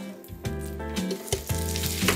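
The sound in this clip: Food fries in oil in a pan with a crackling sizzle and several sharper pops, all over a low, steady tonal hum.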